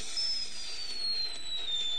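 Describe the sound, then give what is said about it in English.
Bottle rocket fireworks let out thin, high-pitched whistles. Several whistles overlap and sag slightly in pitch over a steady hiss, with no voices heard. “Bottle rockets. A trash can shield.”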